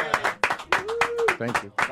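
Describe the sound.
Rhythmic audience clapping for a band during a live interview segment, quick steady claps with voices mixed in.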